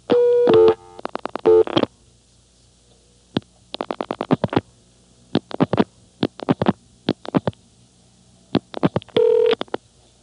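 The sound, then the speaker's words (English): Touch-tone telephone dialing while calling a number: many short electronic beeps in irregular clusters, some long and some clipped, separated by brief silences, with no voices. “Number 1-1-1. Now I'm going to call it through callback.”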